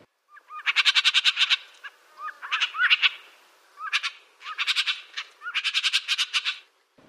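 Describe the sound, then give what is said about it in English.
Gray jay calls: several bursts of rapid, harsh chattering notes with short pauses between them, clear and moderately loud against a quiet background. “Those were the calls of the gray jay.”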